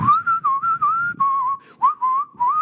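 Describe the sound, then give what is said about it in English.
A man whistles a melody, clear and alone, with several sustained mid-pitched notes joined by quick slides and short breaks between phrases. “He plays the piano and he whistles.”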